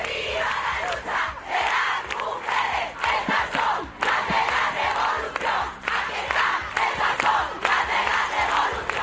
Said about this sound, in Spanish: Sonidos del día. Las mujeres toman la calle.